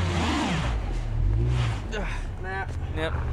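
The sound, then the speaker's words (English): A white Ford Ranger pickup revving hard as only one rear wheel spins in two feet of deep snow, the engine droning and surging into a climbing whine, with a man talking over it. “this white Ford Ranger pickup ain't going nowhere. Nope, that's not working.”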